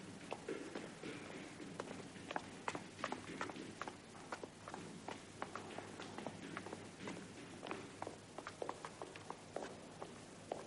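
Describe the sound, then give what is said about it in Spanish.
Faint footsteps of a man carrying a briefcase walk along a hospital gallery. The many steps fall at a steady walking pace over a soft background hiss, with no talk. “Camina por la galería. Continúa por un pasillo.”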